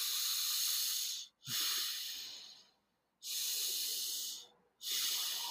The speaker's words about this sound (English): So listen to the cadence of my breath when I breathe in and out through my nose. And we're just letting it go. It's fully in, and then you just release the air. So that sounds like this.